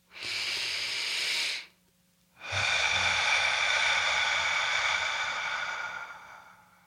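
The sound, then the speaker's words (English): One deep breath: a steady airy inhale through the nose for about two seconds, a short pause, then a longer, louder exhale through the mouth that slowly fades out, with no talk. “Take a deep breath with me. Right now, breathe in through your nose for 2 seconds, fill your belly, breathe out through your mouth for 4 seconds.”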